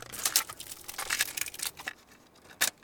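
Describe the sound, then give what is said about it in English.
Brand-new cassette tape being unwrapped and put into a cassette deck: faint crackling and tearing of plastic wrap in quick bursts, ending with a short, sharp click. “That's the sound of a brand new cassette tape being unwrapped and put into a cassette deck.”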